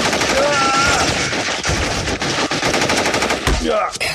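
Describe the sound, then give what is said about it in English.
Loud machine gun fire during a shootout in a lobby: dense, continuous rapid bursts of cracks filling the whole clip, with a few heavier thumps and short tonal squeals. “You're shooting up my lobby!”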